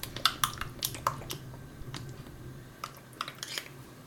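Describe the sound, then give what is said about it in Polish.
A teaspoon clinks as it stirs a mixture with oregano inside a small cup. Light, quiet taps and scrapes cluster at the start and again near the end. “No a jeśli taką łyżeczkę posiadamy, to spokojnie możemy sobie wymieszać całość w środku.”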